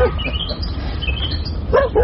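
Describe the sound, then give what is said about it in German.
A Golden Retriever barking outdoors: a few short, yipping barks, sharper near the end, over a steady background rumble. “ist das Ihr Hund? Ja. Golden Retriever, was?”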